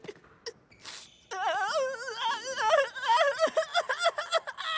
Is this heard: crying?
yes